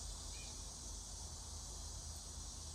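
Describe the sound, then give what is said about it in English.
Bugs chirping loudly outdoors, a constant high, buzzing drone that holds steady without pauses. “I'm sorry, the bugs were quiet a second ago, and now they're loud again, and they threw me off for a second.”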